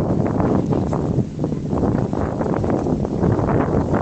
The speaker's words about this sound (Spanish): que hace un viento horrible aquí en esta acera, en este, en este esquinazo de aceras